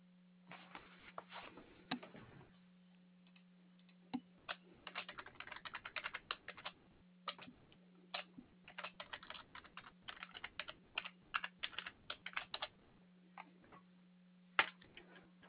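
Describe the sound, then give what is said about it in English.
Typing on a computer keyboard while a customer's name and address are entered, with faint, irregular runs of quick keystrokes broken by short pauses over a low steady hum. “once I'm done typing in the information that you've already provided, such as your name and your address”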